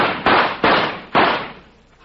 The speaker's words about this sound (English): Mister, you hit him with all four shots.